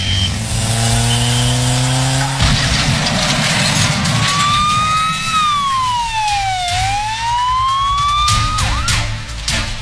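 Police siren following a car, wailing loudly with a tone that climbs, sinks and climbs again over steady engine and road noise.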